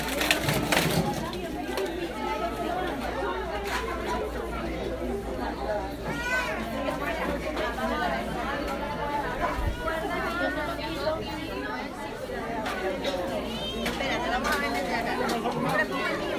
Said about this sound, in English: And what you hear now is just the normal rustle and bustle that happens every day inside the facility